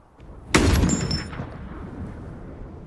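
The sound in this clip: A loud gunshot in a film battle scene between guerrillas and an American patrol in the desert, a single sharp crack followed by a rumbling tail that slowly fades.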